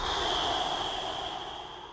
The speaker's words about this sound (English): Four breath cycles. Let all the air out through your mouth.